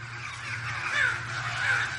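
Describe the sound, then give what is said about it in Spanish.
Crows caw as they take flight from a tree in a snowy northern landscape, giving two or three harsh, rasping calls over a low steady background hum. “En el norte, a varios cuervos se les ponen los ojos en blanco durante unos segundos. Alzan el vuelo desde un árbol y se alejan de Invernalia.”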